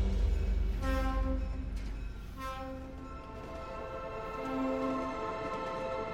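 An old train travelling at night gives a steady, low rumble, while sustained horn-like tones sound over it, fade, and return, with no talk.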